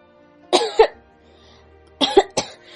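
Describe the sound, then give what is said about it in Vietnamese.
A light cough, two short throaty bursts separated by a pause, each with a doubled catch. They are fairly quiet, with no speech around them. “Ho nhẹ một tiếng mở miệng nói.”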